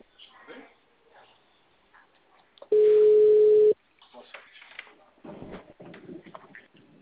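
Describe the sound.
A telephone ringback tone plays while a call is being placed: one loud, steady, mid-pitched tone lasting about a second, with muffled voices and background sounds before and after it.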